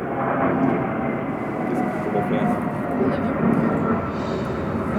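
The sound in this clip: An airplane passing overhead produces a steady, broad roar that holds at an even loudness for the whole stretch, with no clear swell or fade.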